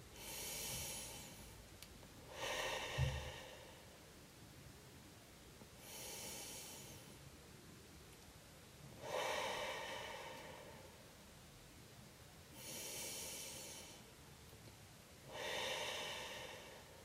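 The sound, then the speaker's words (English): Slow deep breathing during a seated relaxation exercise, breaths taken in through the nose and let out through the mouth: about six faint, evenly spaced airy rushes with quiet gaps between them and no talk. “Take a series of deep breaths in through the nose and out through the mouth.”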